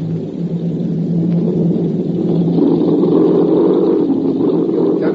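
Aircraft engines drone steadily as the plane comes down in a forced landing: a loud, continuous low rumble that swells slightly midway, with no voices.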